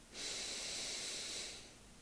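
A slow, deep breath taken during a guided relaxation exercise: a single airy hiss that swells quickly, holds for over a second, then eases off. It is fairly faint and heard alone.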